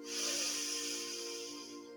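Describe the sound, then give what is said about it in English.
Deep inhale through the nose during a guided belly-breathing meditation: a steady, airy hiss lasting about two seconds, holding fairly even before easing slightly, over a soft sustained tonal drone. “Deep inhale from the nose and fill the belly.”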